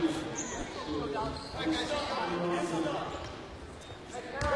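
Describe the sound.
During a basketball game, a ball is dribbled on the court in a steady run of bounces, heard under a commentator's continuous talk.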